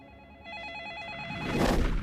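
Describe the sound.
A telephone rings with a warbling electronic trill that pulses rapidly and evenly for about a second, then gives way to a louder, noisy burst at the end.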